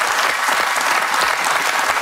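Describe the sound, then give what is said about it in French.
Audience applause: dense, loud clapping that runs evenly through the whole two seconds without a break. “Je suis sûr qu'il y a des jeunes femmes qui vous regardent et qui vous applaudissent comme ça.”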